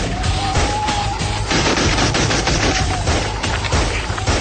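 Dense, continuous gunfire in a radio drama battle scene, with soldiers shooting at approaching beetle-like invaders: loud, rapid bursts of overlapping shots with a booming low end, sustained without pause throughout.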